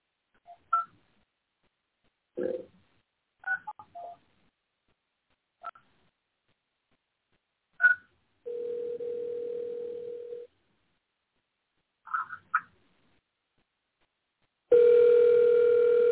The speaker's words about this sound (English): So I'm going to dial this person